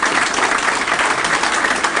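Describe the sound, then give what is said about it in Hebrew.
A crowd applauds in a dense, continuous patter of many hands clapping at a steady loudness for about two seconds, with no single claps standing out. “מחיאות כפיים לצדיק”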